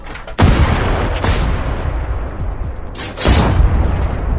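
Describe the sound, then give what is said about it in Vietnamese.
Gunshots in a horror story scene: a few heavy, booming blasts with long gaps between them, each rising out of a dense, rumbling background. “Ba phát súng.”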